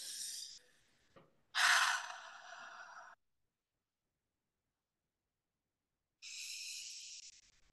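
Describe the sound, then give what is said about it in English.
Slow, deep breaths, soft and airy, taken before a meditation. Three long breaths are spread out, with a long stretch of silence before the last one. “I'm going to take a few deep breaths first.”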